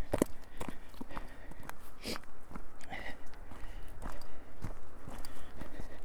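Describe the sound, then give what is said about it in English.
Footsteps on a path leading down into a village, with many irregular, fairly soft treads crunching and scuffing at an uneven walking pace, alone without voices. “Just walking down the path into the village.”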